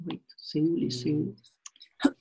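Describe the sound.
A few crisp computer mouse clicks snap between stretches of speech, short and dry, with the last ones landing close together near the end.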